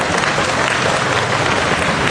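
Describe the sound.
Audience applause at a church gathering welcomes a man onto the stage, a steady, dense wash of clapping that stays loud and even throughout.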